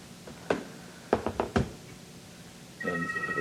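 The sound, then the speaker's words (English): An incoming FaceTime video call rings on a computer during a council meeting: a steady electronic multi-tone ring starts near the end, after a few dull knocks and thumps. “Somebody's trying to dial into the computer system. It happened yesterday during council, too. We couldn't figure out what it was. Interesting. Somebody's trying to FaceTime us.”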